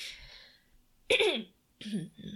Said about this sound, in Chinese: 哽咽嘞？ 没有，我觉得卡痰，老了， 老了， 一口老痰藏在喉咙里面。